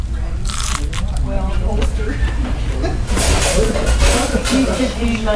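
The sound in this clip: Crunchy bites into crispy fried chicken crust, a few crackling crunches mixed under ongoing conversation.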